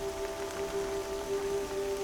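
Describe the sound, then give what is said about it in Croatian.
Heavy rain falls on the thick leaves of a tree canopy, making a steady, even hiss over about two seconds with a sustained low tone running beneath it. “Visoko iznad sebe čuješ zvuk pljuska koji pada po debelom lišću krošnje.”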